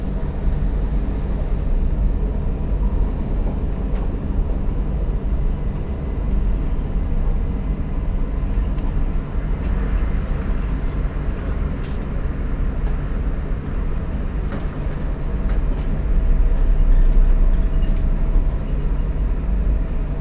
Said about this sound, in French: Début du tunnel. On passe le tunnel de Terre Noire.